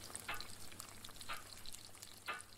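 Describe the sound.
Bacon frying on a stove: a faint, steady sizzle broken by a few sharper crackling pops.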